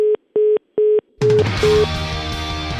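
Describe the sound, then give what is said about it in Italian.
Phone keypad beeps as a telephone number is dialled, three identical, evenly spaced mid-pitched tones, followed by a sudden, loud, dense burst of tonal sound that continues to the end. “Allora, la chiamo con un numero scoperto, due secondi.”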